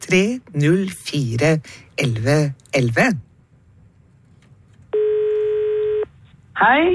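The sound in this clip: A single steady electronic telephone tone from a jukebox request phone line sounds for about one second after a stretch of talk, and a voice returns right after it.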